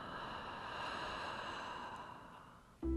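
A slow, steady exhale during a lateral breathing exercise, counted out over five beats. A soft, airy rush of breath holds evenly for nearly three seconds, then breaks off abruptly.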